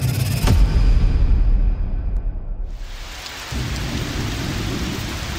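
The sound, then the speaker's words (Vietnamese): Heavy rain pours down as a steady, loud, dense hiss, with a sharp crack of thunder and a low rumble near the start. The downpour dips slightly midway, then continues unbroken to the end. “Mưa trắng trời trắng đất.”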